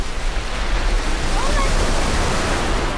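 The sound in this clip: Surf waves roll in during an open-water swimming lesson in the Netherlands, a loud, continuous rushing wash that holds steady throughout with no clear breaks.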